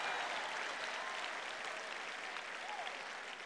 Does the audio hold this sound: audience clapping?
yes